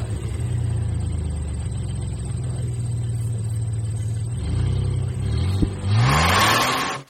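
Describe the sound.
A car engine revs as the driver presses the gas. A steady, low idling rumble runs for several seconds, then the engine surges near the end with a rising pitch and a burst of loud hiss.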